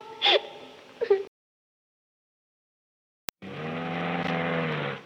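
A car engine in a Vietnamese cai luong stage drama street scene: after a few brief gasping vocal sounds, a pause and a sharp click, a steady, loud, rumbling engine drone fills the rest.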